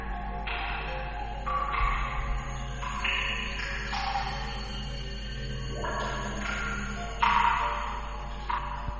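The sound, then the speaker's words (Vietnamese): Water drips onto a floor in a ghost story, a few sharp, ping-like drops falling at irregular intervals over a steady low hum. “nghe có âm thanh dội vào tai như là tiếng nước dọi xuống sàn tí tà tí tách”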